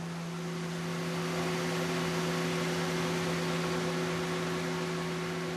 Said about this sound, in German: Das Leder ist viel zu dick und muss deshalb gespalten, also dünner gemacht werden. Auch das erledigt eine Maschine.